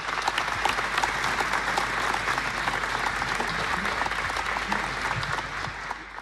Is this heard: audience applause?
yes